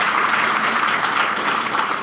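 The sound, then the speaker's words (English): Applause from an audience fills the whole moment, a dense, even patter of many hands clapping at steady loudness, with no talk over it. “you can give a round of applause for that”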